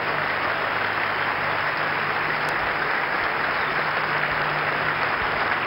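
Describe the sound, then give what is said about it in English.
Sustained hand clapping from an audience at a church worship service, a dense, steady, even wash of applause from start to finish without letting up. “Make it louder. That's not enough for my Lord. Put your hands together for Jesus.”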